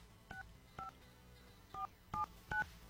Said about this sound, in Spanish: Estamos marcando.